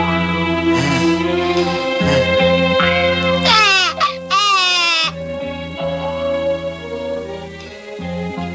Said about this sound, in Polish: Nie płacz, maleńki. Wszystko będzie dobrze.